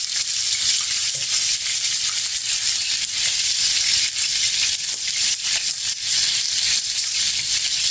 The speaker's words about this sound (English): So we're going to let it sear right here for a couple minutes.